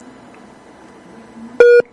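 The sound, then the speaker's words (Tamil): A phone line sounds an incoming call tone: one short, steady, mid-pitched electronic beep after near silence and a faint low hum. “அருள் செல்வன், உங்களுக்கு வேறு அழைப்பு வருகின்றதா?”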